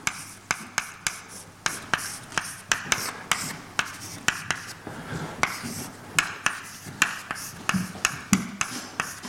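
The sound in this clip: Formulas being written on a board: many quick, scratchy strokes and light taps in an irregular, busy rhythm, with no talking.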